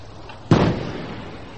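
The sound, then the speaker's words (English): A small gun on a submarine fires a long-range shot at a ship 8,000 yards off. It gives a single sharp, loud boom followed by a short, decaying rumble. “It's a long shot for a small gun. Very well. Engage.”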